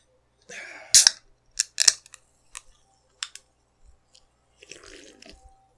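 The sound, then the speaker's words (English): Refilling a glass of Pepsi: a few sharp clicks and clacks, then a softer wet, dripping rustle near the end, with no talk. “I had to refresh my Pepsi.”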